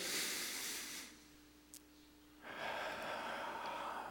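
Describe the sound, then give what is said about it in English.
A church audience breathes in deeply together during a morning service: a broad, airy rush of many breaths swells, falls to near quiet for about a second, then returns as a second long, steady wash of breath. “I want you to just, uh, with me, take a deep breath and then let it out. Ready? Here we go. We're going to bring it in”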